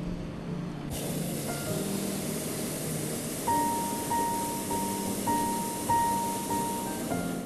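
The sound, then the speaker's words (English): A hot air balloon burner fires in flight above a city, a loud, steady roaring hiss that kicks in after about a second and carries on throughout, with a repeating high beep sounding over it in the second half. “We hear the sound of the burner as it takes us up higher into the sky, but other than that, it's just perfectly silent up here.”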